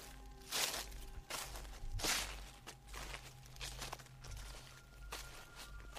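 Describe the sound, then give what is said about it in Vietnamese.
Slow, rustling footsteps move across a roof, each step a soft scuffing burst in an unhurried sequence. The steps are faint and sit over a low, steady hum. “Lần này A Nùng còn nghe cả tiếng bước chân tựa như đang đi lại trên mái, cứ sột soạt chậm rãi.”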